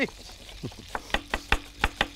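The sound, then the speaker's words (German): Onions being chopped with a knife while cooking with butter in a kitchen: a quick, even series of sharp, crisp knife strikes, moderately loud, following a brief quieter stretch. “Der schnellste Zwiebelschneider von Finkenrecht.”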